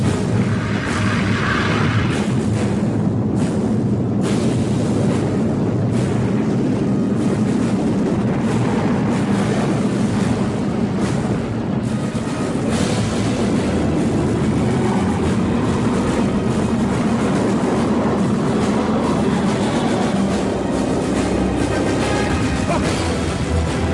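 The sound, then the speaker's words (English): Dune film score from the scene of Paul riding the sandworm: dense, continuous booming and rumbling music, held at a steady loud level throughout with no pauses. “So this will be a 3-minute clip from the film when Paul is riding the worm. Yeah. So this is the music he's talking about.”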